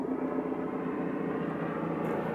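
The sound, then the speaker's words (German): A helicopter flying overhead produces a steady, droning engine and rotor roar that holds at an even level from start to finish, with no voices over it. “jetzt fliegt hier gerade ein Hubschrauber drüber. Gucken wir dem Hubschrauber kurz hinterher”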